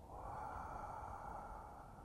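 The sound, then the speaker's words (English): One slow, natural inhalation during a breathing meditation, a soft, airy rush of breath drawn steadily for about two seconds, quiet and unbroken. “Then I allow my inhalation to be very natural.”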